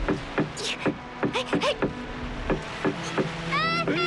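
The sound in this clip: Someone knocks on the wooden planks of an old fishing boat at sea to draw in large yellow croaker. Many sharp knocks land in a fairly steady rhythm, with people talking and shouting throughout.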